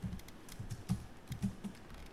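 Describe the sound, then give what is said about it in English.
Fingers type on a computer keyboard in faint, irregular clicking with many quick keystrokes and short pauses, and no other sound. “So maybe I should type it. I'll type it, it's faster.”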